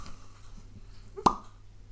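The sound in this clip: A cork pops out of a wine bottle as one brief, sharp plop that stands alone over a faint low hum.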